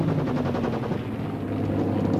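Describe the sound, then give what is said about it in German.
A Spitfire fighter plane attacking from behind produces rapid, continuous machine-gun fire over a loud droning engine, the rattling pulses dense and unbroken from start to finish. “Spitfire ist von hinten!”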